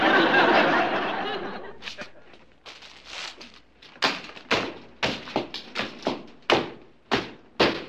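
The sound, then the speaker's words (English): A loaf of French bread repeatedly smashes communications equipment, producing many sharp thumps and taps that grow more forceful and regular after a noisy opening. “Just destroying some chaos communication equipment, Chief.”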